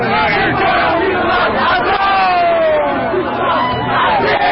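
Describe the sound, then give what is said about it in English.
Protesters outside Trump Tower in New York City during demonstrations over George Floyd's death shout and chant as a loud, continuous mass of voices with no pauses. “This is the sound of protesters outside Trump Tower in New York City last evening.”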